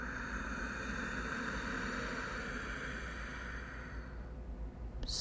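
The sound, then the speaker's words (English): A long, smooth, hissing nasal inhale drawn through a slightly constricted throat in Ujjayi breathing. The breath stays even for about four seconds, then tapers away. “That oceanic sound is the noise that you should create here in Ujjayi breath. So as you're ready with a slight little constriction of the back of the throat, take a deep inhale breath through the nose.”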